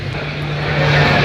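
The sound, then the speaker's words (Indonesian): A military transport aircraft used for logistics flies over an air force logistics base at an airport, a steady, loud, broad engine roar that grows slightly louder over the short stretch. “Itu kan pesawat angkut ya untuk apa namanya logistik.”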